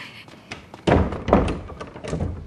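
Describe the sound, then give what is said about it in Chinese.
A door is opened for a visitor, giving a few dull, fairly loud thumps and clunks that follow one another closely, with no talking over them. “来了，快去开门。”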